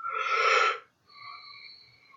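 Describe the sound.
A Wim Hof breathing exercise: one forceful, rushing breath lasts under a second, and after a brief pause comes a softer, steadier breath with a faint tonal, whistle-like quality.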